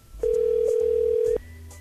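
A telephone dial tone after a call is hung up: one steady, mid-pitched electronic tone sounds unbroken for about a second, then cuts off abruptly, leaving only a faint low hum on the line.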